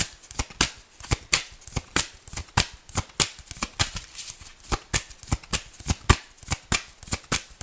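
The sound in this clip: Tarot cards are shuffled by hand in a long run of many crisp, papery riffling snaps, coming in a fairly steady rhythm at moderate loudness with no talking.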